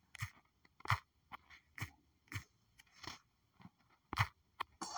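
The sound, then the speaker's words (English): Someone types on a phone, producing many sharp, dry taps in an irregular rhythm, with short quiet gaps and a few louder clicks among fainter ones. “this is the sound of me typing on my phone to save a file.”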